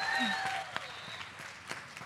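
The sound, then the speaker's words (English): A small round of applause: a voice at the start, then light, scattered claps that come sparsely and unevenly rather than as a full ovation. “Yes! Oh, round of applause!”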